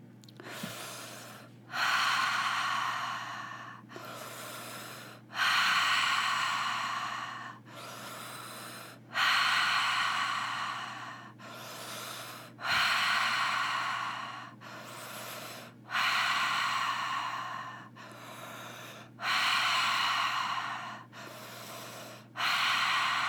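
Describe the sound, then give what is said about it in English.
Deep breaths in a guided breathing exercise: slow, loud rushes of air in several long cycles, each strong breath lasting a couple of seconds and alternating with quieter ones, over a faint steady hum. “we're going to repeat that breath pattern one more time.”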